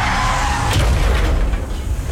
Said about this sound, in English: But then comes the crash.